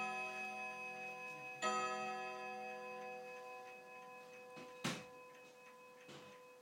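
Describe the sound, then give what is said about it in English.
A chiming clock's ringing, bell-like chime slowly decays, broken by a few sharp mechanical clicks between the chime tones, with no voices present. “Love this clock. But I don't know why it clicks like that in between the chimes.”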